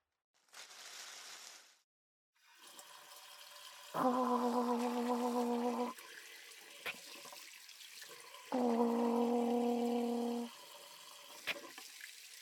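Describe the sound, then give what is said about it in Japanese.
Tap water runs steadily as hands are washed beneath it, a continuous rush that follows a short burst of hiss, with two stretches where a loud tonal hum rises over the flowing water. “先に手洗ってるで。”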